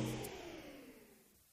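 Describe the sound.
A Hilux pickup engine revs in a car advert, a loud whooshing roar that starts strong and steadily fades over about a second and a half.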